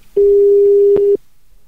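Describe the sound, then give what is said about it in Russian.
Telephone ringback tone after dialing a call: one steady, mid-pitched beep lasting about a second, with a faint click near its end, then only a quiet line. “Пошел гудок.”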